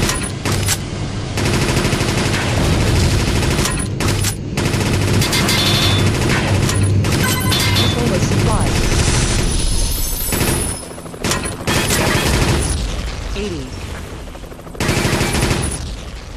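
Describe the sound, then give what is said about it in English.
Rapid machine gun fire in a video game where the player shoots at moving enemy ships. Dense, loud, continuous bursts run almost throughout, broken by a few short gaps. “Machine gun 100. Speed machine gun.”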